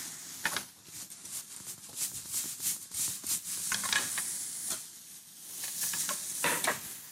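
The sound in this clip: Garlic sautéing in a pan makes a steady crackling sizzle, with stirring scrapes and sharper pops scattered throughout.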